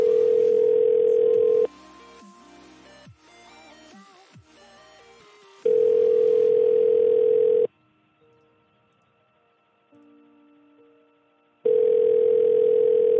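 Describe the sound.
Telephone tones from an outgoing call that goes unanswered: a loud steady tone returns three times, separated by stretches of quicker dialing tones and fainter beeps, with no talk.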